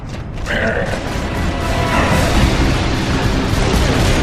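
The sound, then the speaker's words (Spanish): An elevator lift mechanism in a video game starts up with its motor, a dense, grinding mechanical roar with creaking and booming undertones that swells slightly at first and then holds steady and loud. “En cuanto enciende el motor, sube el elevador.”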